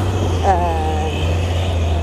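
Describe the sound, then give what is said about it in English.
A bus on a Skid Row street makes a steady, low engine rumble that holds throughout, with a person talking over the noise. “Okay, well, there's the bus.”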